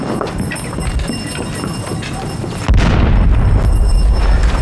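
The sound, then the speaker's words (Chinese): Artillery fire erupts as a heavy, low boom partway through and keeps rumbling loudly over a dense, noisy background. “哪儿大炮？哪儿大炮？”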